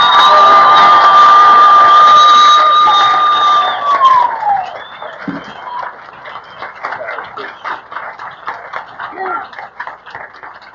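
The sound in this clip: An audience cheers and claps for a speaker from Thousand Oaks, California, who opens by saying she is an addict. A long, loud sustained whoop falls in pitch at its end, then gives way to scattered clapping and shouts.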